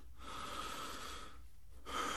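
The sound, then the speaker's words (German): A man breathing in and out, heard alone: a long, faint, airy breath, a pause, then the start of another breath. “Ich hörte ihn ein- und ausatmen”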